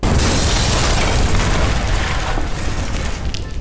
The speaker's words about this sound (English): I'm going to try this with bigger explosives, magnesium gasoline and silt-based. I'll use squibs to electronically detonate, and I'll shoot it at 100 frames per second.